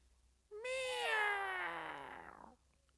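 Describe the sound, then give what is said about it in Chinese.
A cat meows once, loudly, for about two seconds. The call rises sharply in pitch at the start, then slowly falls and fades, with near silence before and after. “这个该死的猫啊，你把我吓得差点没掉楼下边去”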